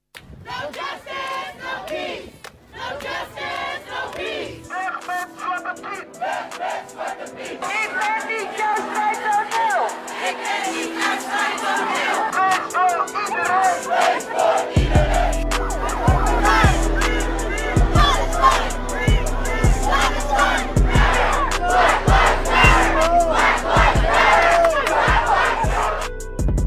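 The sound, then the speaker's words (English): Protest crowd in the Netherlands chanting and shouting: many voices massed into a loud, sustained roar that carries on without a break for the whole stretch. “From 1983 to 2021, from Black Lives Matter to kick out Zwarte Piet, this is the sound of protest.”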